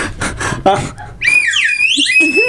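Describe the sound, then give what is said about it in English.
A bright, wavering whistle with sliding pitch follows a brief stretch of talk and holds loud to the end. “give him a whistle”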